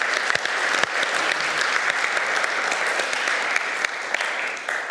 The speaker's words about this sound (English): So let's give the teams just a round of applause.